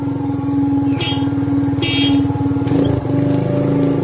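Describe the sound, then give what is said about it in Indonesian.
A motorcycle engine runs with a loud, steady, rumbling drone, and its horn sounds in brief honks over the engine noise. “Sedikit iseng aku pun menyalakan klakson motorku dan melewatinya.”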